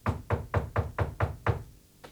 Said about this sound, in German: Es klopft. Mach auf!